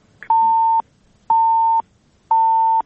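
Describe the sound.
Three steady, mid-pitched electronic beeps on a phone line from a call that failed to connect. Each tone lasts about half a second, and they are evenly spaced a second apart with silence between.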